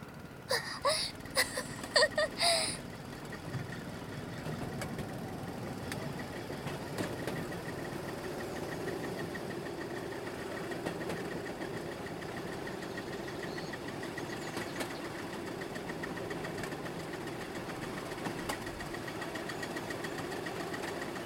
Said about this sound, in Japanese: まずはサイドブレーキ解除して、信号確認、出発進行、アクセルオン